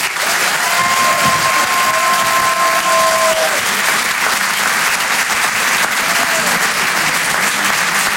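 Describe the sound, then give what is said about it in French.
Comedy-show audience applauding and cheering as a performer is introduced, a loud, sustained wall of clapping with some cheers that holds steady for about eight seconds. “Faites un maximum de bruit, s'il vous plaît, pour Antoine Donneau.”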